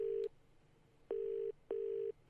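Telephone keypad tones sound as a player dials out for help during a quiz game. Three steady electronic beeps share the same pitch: a short first tone, then two longer ones of about half a second each, separated by quiet gaps.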